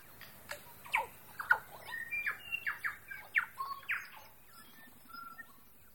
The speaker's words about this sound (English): It's a very active bird. He's scraking and has an occasional boom most nights